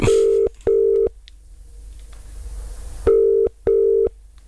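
Ringback tone of an outgoing telephone call, with four loud steady tone bursts in two paired rings separated by a gap of low line noise.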